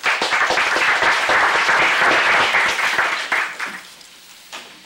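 Applause from the Senate floor welcoming guests in the gallery: steady, dense clapping from many hands that tapers off in the last second or so.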